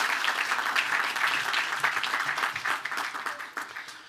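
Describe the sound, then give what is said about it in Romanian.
A church audience applauds to bless a member: steady, dense clapping from many hands that holds for several seconds and thins slightly toward the end. “Haideți încă o dată să-i aplaudăm și să zicem Domnul să-i binecuvinteze.”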